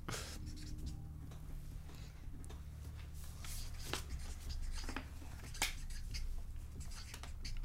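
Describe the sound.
Pen writing on paper during a game session: soft scratching strokes and small taps come in uneven bursts over a constant low background hum.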